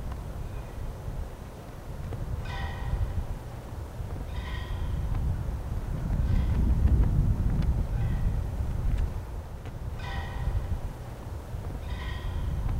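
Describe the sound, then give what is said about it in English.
Wind blows steadily across a snowy football field as a flag flaps in it, a low rushing rumble that swells and eases, with a few intermittent crisp flutters rising above it. “Yeah. That's the sound of the flag blowing in the background.”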